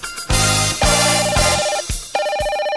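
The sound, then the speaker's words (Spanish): A telephone rings with a bright electronic ringtone melody, a few loud repeated tonal bursts with short breaks between them, sounding alone. “Tengo una llamada, un momento.”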